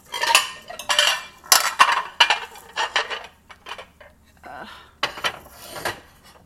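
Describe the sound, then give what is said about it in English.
Cutlery and dishes clink and clatter as they are put away, a run of many sharp metallic and ceramic knocks in uneven bursts, loudest early on, with a quieter rattle of silverware near the end. “okay, main dishes are in. I just have to do the little silverware. Wow, there's a lot of silverware in here.”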